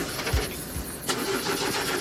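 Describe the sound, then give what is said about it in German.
A limousine engine is started and sounds poor, with a couple of low cranking thumps before the motor catches into a steady, rough running noise. “Draußen steht eine Limousine für euch. Steigt mal ein und anlassen.”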